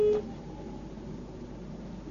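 A short electronic beep sounds as a phone call on a radio call-in line drops, followed by a faint, steady line hiss with no voice.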